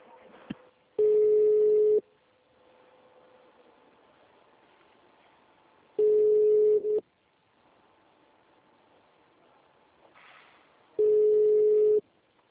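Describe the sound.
Telephone line tones sound while a call is being transferred: three long, steady beeps about five seconds apart, with a faint hiss filling the gaps between them.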